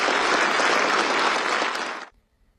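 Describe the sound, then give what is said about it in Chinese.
Warm audience applause at the opening ceremony of a high-level scientists' dialogue in Pretoria as two leaders walk in: loud, dense clapping that holds steady, then cuts off abruptly near the end, leaving near silence. “在热烈掌声中，习近平和拉马福萨共同步入开幕式现场。”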